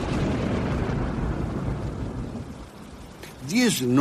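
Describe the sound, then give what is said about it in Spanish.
Heavy rain pours steadily onto parched jungle ground as a dense, continuous hiss. A brief voice-like sound enters at the very end. “Y la lluvia llegó a empapar la tierra sedienta.”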